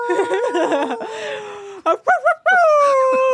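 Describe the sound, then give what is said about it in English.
A person imitates a dog howling, starting with wavering vocal sounds, then a few short yelps, then one sustained, steady, high howl. “so he's like howling to the moon”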